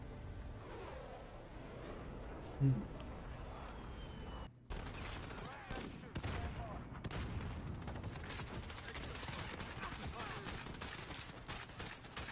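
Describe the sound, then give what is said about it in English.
Rapid gunfire from a semi-automatic rifle and a shotgun in a video game, with dense, continuous volleys of sharp shots and booms running through the whole stretch without a break. “Yo, this is with the semi-automatic and a shotgun. You have to pull the trigger every time? Every time he's shooting, he's pulling the trigger.”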